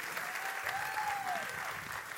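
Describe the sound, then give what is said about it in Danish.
Church audience applauding to welcome a member home after two years in New Zealand; steady, even clapping that runs the whole time, fairly soft and without talk. “Kan I ikke lige give Hanne en stor hånd og byde hende velkommen hjem?”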